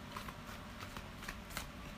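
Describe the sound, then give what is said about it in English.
Cards are shuffled and pulled for a collective reading, a faint, continuous papery riffle with light taps and flicks scattered through it. “So I'm gonna pull a few cards.”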